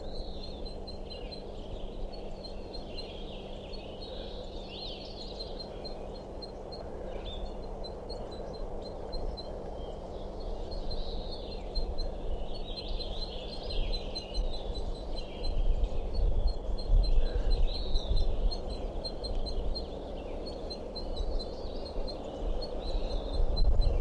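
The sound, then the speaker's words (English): Repeated high, short chirping calls of a female crossbill on a nest in a tree, a steady series of faint notes over a constant low background rumble. “I'm underneath that tree I think a crossbill is nesting in, and this calling from I think a female crossbill somewhere on a nest continues, and this is a sample.”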